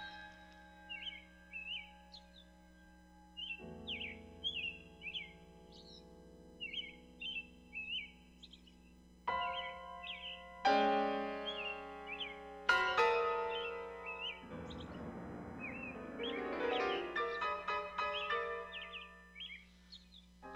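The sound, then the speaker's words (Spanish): A blackbird whistles its song in short, high chirps repeated steadily throughout, while piano notes enter underneath and build into fuller chords toward the end. “Lo que tiene de especial el silbido de los mirlos es que es idéntico al silbido humano”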